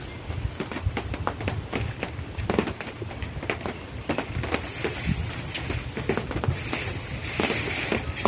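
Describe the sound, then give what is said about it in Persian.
Outdoor ambience above the forests near Ramsar at the top of a cable car, a steady wash of noise broken by many irregular clicks and knocks, with no clear talking. “خب این صدایی که الان دارید میشنوید بالای جنگلای اطراف رامسر که تلکابین میبره تا اون بالای بالا.”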